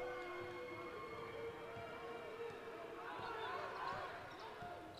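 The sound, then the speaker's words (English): A basketball is dribbled on the court during a high school game as a team holds the ball late in the fourth quarter. Many quick, faint bounces run under a steady crowd din. “It is right now at the moment putting on a dribbling exhibition.”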